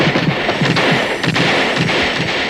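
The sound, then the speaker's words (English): Loud, rapid gunfire from guards shooting at a robot, with a dense burst of shots and cracks layered over a continuous roaring wash of noise and no pauses. “At that moment, Skroeder and his guards arrived on the scene and start firing at the robot.”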